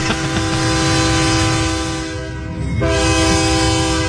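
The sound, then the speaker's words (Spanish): A horn honked again, sounding like a sustained train-style horn with a rich, steady harmonic tone. It dips briefly partway through, then sounds again at full strength, with no voices. “Pítele otra vez, que le toque el pito otra vez.”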